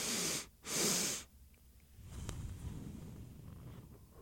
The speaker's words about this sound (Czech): A funguje to nějak takhle. Já se na dvakrát nadechnu nosem a pak velmi pomalu vydechuju.